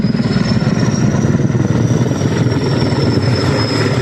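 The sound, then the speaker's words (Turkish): Firefighting helicopters and planes working a forest wildfire make a continuous, loud droning rumble of rotors and engines, dense and steady, with a faint thin whine held high above it. “Alevlerle mücadele sabahın ilk ışıklarıyla birlikte yeniden hareketlendi. Yangın söndürme uçakları ve helikopterlerine 3 adet amfibik uçak da eklendi.”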